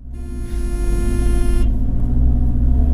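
A jeep drives along a smooth paved bypass road out of Bujumbura, Burundi, toward the interior. A steady engine rumble and road noise run throughout, with a higher tonal whine over the first part.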